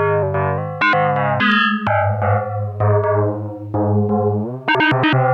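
A synthesizer plays a sequence of distorted, buzzy notes while its pitch is shifted, the tones stepping up and down in a choppy rhythm with bright, effect-laden harmonics and no voices.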